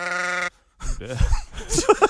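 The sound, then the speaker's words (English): A loud sheep bleat triggered from a sound-effect button: a sustained, buzzing call that cuts off abruptly, then after a short silence more wavering bleats and grunting animal sounds. “I was still expecting the volume of that sheep.”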